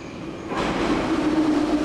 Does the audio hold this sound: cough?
no